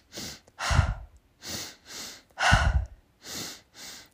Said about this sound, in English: you breathe in through your belly, into your lungs, and then out.